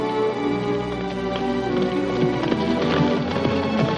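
Hoofbeats of a horse galloping away in a 1956 Western scene, a steady, continuous run of clip-clop beats at moderate loudness over a dense, busy background.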